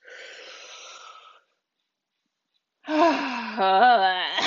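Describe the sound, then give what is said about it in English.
A deep breath drawn in at the close of a relaxation session: a soft, airy inhale, then a brief silence and a voiced, moaning sigh as the air is released. “So let's end this with a deep breath in.”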